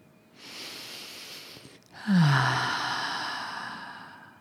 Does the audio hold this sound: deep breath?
yes